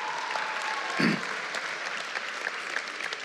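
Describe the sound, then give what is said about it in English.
Students in a school chapel applaud the seniors starting their last semester, with steady, dense clapping throughout and a slight swell near the middle. “So let's give it a hand for the seniors as they pull through.”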